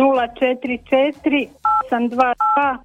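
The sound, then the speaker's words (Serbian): Telephone keypad tones sound during a phone call as someone dials, steady beeps breaking through over continuous talking. “Ne tipkati dok smo na liniji.”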